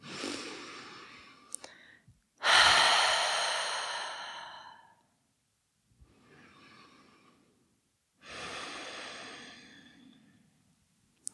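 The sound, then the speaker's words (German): Slow, deep breaths drawn in and let out through an open mouth: three long airy exhales, the first loudest and the middle one faint, divided by quiet pauses with small clicks. “nimm hier ein paar tiefere Atemzüge ein und aus, gerne mal durch den geöffneten Mund.”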